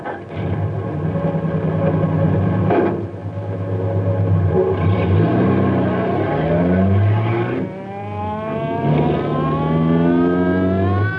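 A car driving down a mountain road, its engine droning loudly and continuously, with the pitch wavering and shifting up and down throughout.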